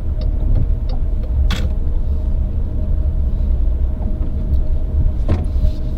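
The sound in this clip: A Mini Cooper car driving, with a steady, loud low rumble of engine and road noise and a few faint ticks and clicks.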